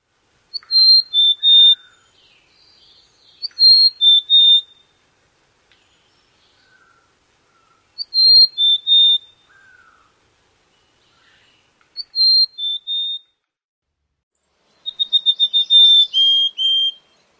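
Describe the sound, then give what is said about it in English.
Mountain chickadee song: five clear, high whistled phrases separated by silence, each made of a few sweet notes, with the last phrase a faster, longer run of notes. “The mountain chickadee song is more variable with 3 to 6 syllables. They're just a little extra.”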